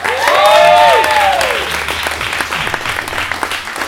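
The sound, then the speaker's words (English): Loud audience applause welcomes a newspaper editor and columnist as a guest. The clapping is strongest in the first second, then eases off slightly over four seconds, while a high sliding tone sweeps over the opening second and a half. “Please welcome Mr. Stephen Humphrey.”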